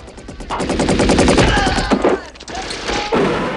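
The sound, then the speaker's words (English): Rapid automatic gunfire from a soldier strafing as he runs, an audio drama battle effect. The rattling bursts are loud and dense, with short breaks just before the middle and near the end. “John runs towards the villa, strafing as he goes.”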